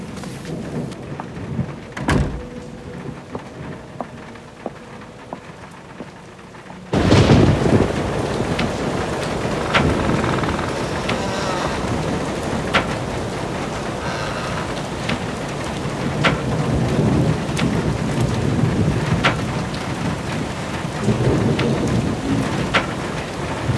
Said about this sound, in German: Verdammte Fensterladen. Kann ihn der Sturm nicht endlich wegreißen?